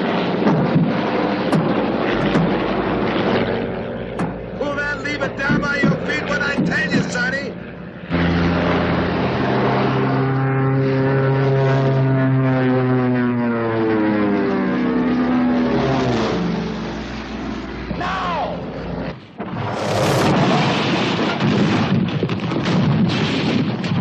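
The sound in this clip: A crop duster plane's engine roars through an aerial stunt sequence in the film Capricorn One, loud and continuous, its droning pitch sweeping through a long pass with crackling bursts, a brief drop and a loud surge near the end.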